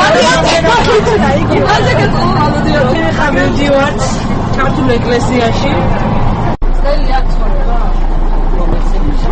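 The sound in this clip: Passengers chat in a dense, continuous babble of overlapping voices inside a bus running from a stop in Munich to the Georgian church. The chatter cuts off abruptly near the end, and a steady low hum follows.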